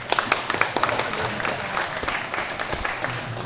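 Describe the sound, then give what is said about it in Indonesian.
Audience applause for the speakers at a contemporary art award talk: many hands clapping in a brisk, dense patter, slightly louder at the start and then holding steady to the end. “Mungkin sebelumnya kita beri aplaus dulu untuk para pembicara.”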